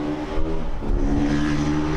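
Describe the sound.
A vehicle on deep-tread tires powers away from a stop sign. Its engine gives a loud, steady rumbling drone with a humming, harmonic whine that holds level throughout.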